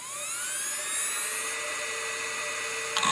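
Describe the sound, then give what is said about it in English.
Mechanical hard drive in a 2005-era PowerBook laptop spinning: a thin, high whine with layered tones that climb in pitch over the first second or so, then hold steady, ending with a brief clicking burst. “my 2005 era PowerBook would sound kind of like this.”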